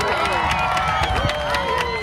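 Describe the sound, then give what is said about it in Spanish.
Beach crowd at Malvarrosa applauding the end of a total solar eclipse, with scattered claps mixed into loud, overlapping shouts and excited voices. “un espectáculo que se pudo contemplar desde 9 puntos oficiales en nuestra comunidad y donde los aplausos acompañaron la finalización de este fenómeno natural.”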